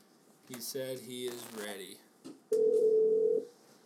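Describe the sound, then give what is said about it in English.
A steady telephone tone sounds while a call is placed to a motocross team mechanic. It holds at an even pitch for about a second, after a stretch of voices talking. “I'm dialing him up. He said he's ready.”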